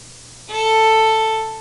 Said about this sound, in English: So first we're going to play an open A.